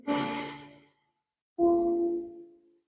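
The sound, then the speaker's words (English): A deep breath drawn in during a guided Reiki full-moon meditation: a long, airy inhale, then a pause and a second, longer sighing breath with a voiced, humming tone. “Take a deep breath in.”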